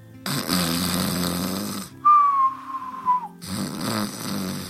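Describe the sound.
A voice imitates the snoring of sleeping parents. It gives a loud, rasping snore, then a high whistle that drifts slightly lower in pitch, then another rasping snore, with no other talk.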